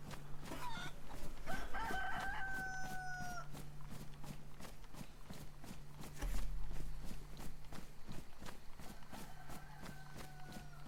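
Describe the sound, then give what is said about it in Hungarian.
A chicken cackling in two drawn-out calls separated by a long gap, over steady rhythmic crunching steps and a low constant hum. “Valahol itt kotkodácsol.”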